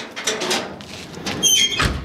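A garage door being opened to reveal an old tomato-red Volkswagen bus: a broad scraping rumble with a couple of bright, high squeaks partway through, and no talk.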